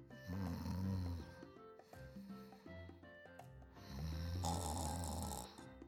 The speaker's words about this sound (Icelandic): En áður ég vissi af, var sveppurkan farin að hrjóta.